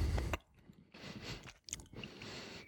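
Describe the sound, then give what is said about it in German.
Chewing on a small piece of very firm cheese, quiet moist crunching and mashing in a few bursts, with no talk. “So, ich probiere den mal. Ich habe ein kleines Stück abgeschnitten. Der ist auch sehr fest von der Struktur her.”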